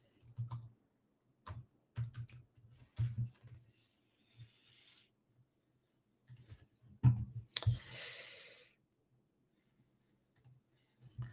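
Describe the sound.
Sparse, faint clicks and taps come in small clusters with pauses between them as someone writes down notes.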